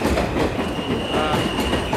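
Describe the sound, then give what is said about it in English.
An M subway train passes, a steady, loud rumbling roar with clattering wheels on the rails that fills the whole clip. “And that, ladies and gentlemen, is the M train.”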